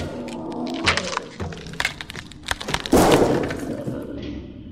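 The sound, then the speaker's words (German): Glass breaking as a lamp is smashed during a fight, with sharp cracks and thuds, then a loud bright shatter near the middle followed by scattered tinkling debris. “Du Riesenteddy, musstest ja unbedingt die Lampe tranchieren.”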